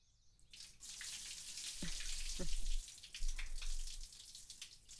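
Water is poured for rinsing, a steady splashing rush that starts soft and swells within the first second, then runs continuously and fairly loud to the end.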